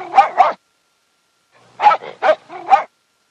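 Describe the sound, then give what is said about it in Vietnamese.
A trained dog barks: two sharp barks, a pause, then three more barks in a quick group with softer yips between them, with no other sounds. “Sau khi sủa hai tiếng to và rõ, nó lại sủa ba tiếng nữa nhỏ hơn”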